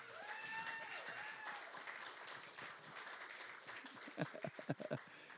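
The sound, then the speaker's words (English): Faint audience applause at the Vineyard Church of Conroe, quiet and sparse at first, with a few distinct hand claps standing out toward the end. “Again, another big hand for her.”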